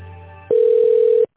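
A telephone line tone plays while a call is being transferred: a single steady, mid-pitched electronic beep lasting under a second, which stops abruptly.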